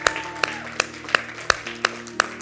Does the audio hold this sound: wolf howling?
no